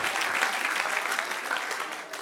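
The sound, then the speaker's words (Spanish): A church audience applauding during a worship service: a steady patter of many hands clapping at an even level that fades a little near the end. “Dale un aplauso al que reina.”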